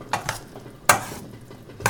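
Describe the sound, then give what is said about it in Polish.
Gentle stirring of chopped cucumbers with other vegetable salad ingredients in a bowl, heard as a few short, soft scraping and clinking bursts with quiet gaps between them. “Tylko jeszcze delikatnie przemieszam”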